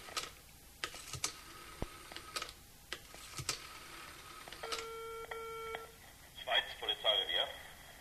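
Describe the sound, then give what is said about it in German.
A telephone call being dialed: scattered key clicks, then a run of short beeping dial tones at stepped pitches, followed by a brighter warbling tone burst near the end. “Ich muss nur noch schnell ein wichtiges Telefonat führen, ja?”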